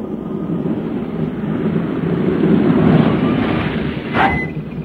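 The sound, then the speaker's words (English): A taxi cab pulls up with a steady low rumble that swells slightly in the middle, then a short, brighter burst near the end. “Say, looks like we're in luck again. Here comes a cab. Taxi!”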